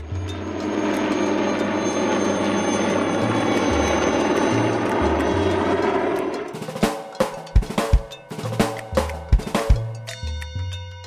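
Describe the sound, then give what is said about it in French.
A helicopter gives a steady, loud mechanical roar with a buzzing engine drone for about six seconds, then a run of sharp, irregular clattering bursts. “C'était un hélicoptère.”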